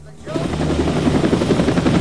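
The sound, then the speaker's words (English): Helicopter coming in to land outside a hacienda: after a brief quieter start, a loud, steady rotor roar sets in with a rhythmic, pulsing thump of the blades that continues throughout. “Outside, the chopper's coming into land.”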